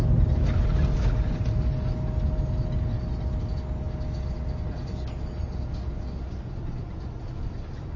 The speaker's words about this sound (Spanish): De noche viaja sentada en un tranvía con la mirada perdida al frente.